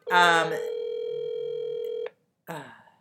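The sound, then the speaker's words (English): A telephone call ringing out: a single steady ringback tone holds for about a second and a half, framed by brief vocal sounds just before and after it. “Hold on. Maybe Angela got her. I'm calling her.”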